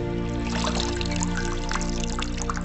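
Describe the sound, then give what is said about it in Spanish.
Soapy water poured from a large jug into a bowl, making a steady, continuous splashing trickle that runs unbroken from start to end. “Llena un cuenco con agua jabonosa, con la que humedece una esponja para lavar el cuerpo.”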